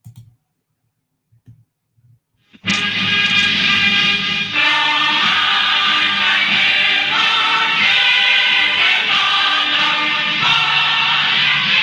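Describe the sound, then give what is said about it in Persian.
A national anthem begins at the opening of a program, starting abruptly after a few faint sounds and then playing loud and steady without pause. “یک دقیقه سرود ملی رو ما پخش میکنیم، سپس برنامه رو آغاز میکنیم.”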